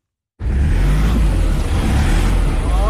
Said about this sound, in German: Wenn die Reifen durchdrehen, hilft kein Gas geben mehr. Und das passiert häufig auf der schmalen, kaum ausgebauten Straße von Kathmandu in den Katastrophenbezirk Roshwa.